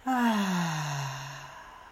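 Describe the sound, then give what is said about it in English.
A long voiced sigh of breath during a guided deep-breathing exercise, starting strong and sliding gently down in pitch as it slowly fades, heard alone. “and out. Deep breath in and out.”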